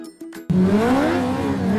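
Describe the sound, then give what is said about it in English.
A supercar engine revs hard at a GT sports-car race, the loud roar cutting in abruptly after a brief quieter lead-in and climbing in pitch as it holds steady. “Ferraris, Lambos, Porsches, all unleashed August 28th through the 30th. GT World Challenge America brings pure supercar drama.”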